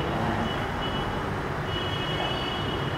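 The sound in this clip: Vehicles passing by outside make a steady, loud rumble of traffic noise that runs through the whole stretch without a break.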